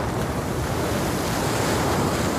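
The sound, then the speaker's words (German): Strong wind and waves at sea, with force 7 wind, 5-metre waves and spray blowing across a boat. A loud, steady roar of surf and gusting wind rumbles on without a break and with no voices. “Immer wieder peitscht der Wind ihm die Gischt ins Gesicht.”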